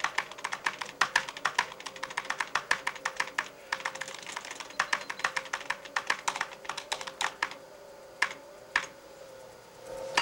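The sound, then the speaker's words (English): Rapid typing on an old-fashioned computer keyboard: many quick, uneven keystrokes in dense bursts that thin out toward the end into a few isolated taps, with no voices. “The keyboard. How quaint. He cracks his knuckles. As he types”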